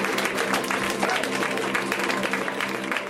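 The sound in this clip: An audience applauds a stand-up comedian as she is introduced, a dense, steady wash of clapping with some crowd noise.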